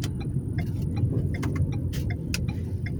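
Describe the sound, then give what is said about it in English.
A car drives the wrong way down a one-way street with its hazard lights on. A steady, dense low rumble of engine and road noise runs throughout, with sharp, light ticks popping out above it at irregular intervals. “I had to put my hazards on because I'm riding the opposite way down a one-way street.”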